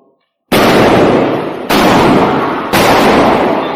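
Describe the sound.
Three loud shotgun blasts ring out in turn, each a sharp, booming crack with a long, rough decay, following a moment of near silence.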